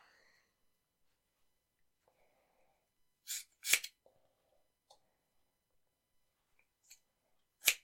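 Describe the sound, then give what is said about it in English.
Scissors snip through hair during a trim, a few crisp, sharp clicks spaced apart, some in quick pairs, faint and isolated against near silence. “I think I'm going to just do a pass of just trimming cutting out of it. Yeah. Nice. Snip, snip, snip.”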